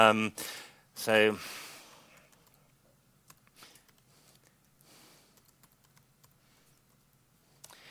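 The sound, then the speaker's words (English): Authentication details typed on a computer keyboard, faint scattered key clicks at an irregular pace following a brief voice at the start. “So I can type in the details in here.”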